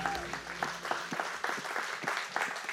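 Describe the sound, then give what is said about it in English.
An audience applauds in church, with dense, steady clapping that runs through the whole stretch at an even, fairly loud level. “What's up, church? Can we just give the Lord a hand?”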